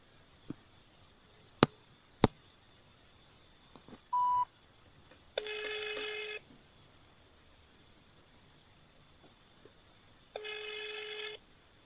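A telephone call being placed to an emergency-services office: a few sharp clicks and a brief beep, then two long buzzing ring tones several seconds apart, separated by near silence.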